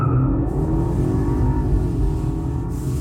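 A car drives off with a steady, low engine rumble and rising revs that hold throughout, with no voices.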